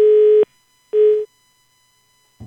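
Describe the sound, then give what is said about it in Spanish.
A telephone busy tone follows a dropped call. Two loud, steady beeps sound, the second shorter, and a brief low thump comes at the very end. “Se nos cayó la llamada con el ministro de Deporte, el doctor Guillermo Herrera.”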